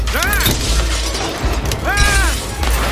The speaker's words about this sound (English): The windshield cracks beneath his paws, then shatters.